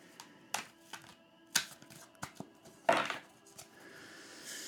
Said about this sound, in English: What's the advice that the spirit of the tarot can give us? All right, let's pull a card.